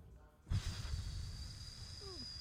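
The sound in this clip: A big breath blown out by a man, a sudden loud rush of air that trails off into a softer hiss.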